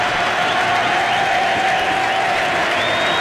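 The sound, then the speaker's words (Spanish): Spectators at a match raise a loud, sustained crowd noise as the home public starts chanting. A steady, dense wall of voices holds at an even level throughout. “Sí, está la cantata del público, que pudo haber llegado antes también, porque se necesitó esto.”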